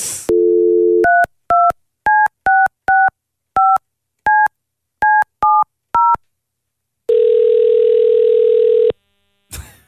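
Telephone dialing on a call: a steady dial tone gives way to a quick run of many keypad beeps, then a long, unbroken ringing tone holds for about two seconds before a brief click at the end.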